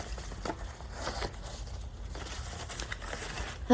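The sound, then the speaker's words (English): Rummaging through a bag looking for cards: faint, irregular crinkling and rustling scattered throughout, with a sudden louder sound at the very end. “Let me go back to my bag because maybe I missed one of the cards.”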